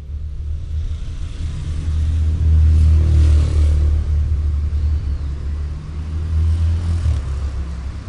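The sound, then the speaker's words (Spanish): A car engine accelerates as the vehicle pulls away from a garage. A deep, loud rumble swells to a peak, then holds steady with slight surges, with no voices. “Vuelve al auto y pone seguros en todas las puertas. Pisa el acelerador. Y se va.”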